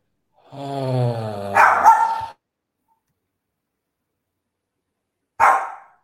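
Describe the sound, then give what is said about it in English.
A dog growls and barks. A drawn-out, tonal growling bark runs into a couple of rougher barks, then a long silence, then one more short, sharp bark. “Man, this fucking dog's a cunt. Yeah. Well, listen, your dog is saying more than you are”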